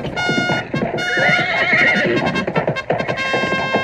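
A horse sound effect: a loud, long, shrill whinny with a shaky, wavering pitch, while steady clip-clopping hoofbeats run underneath the whole time.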